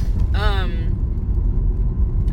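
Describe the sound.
Steady low road rumble inside a car while driving, loud and continuous throughout, with a brief tonal voice sound near the start.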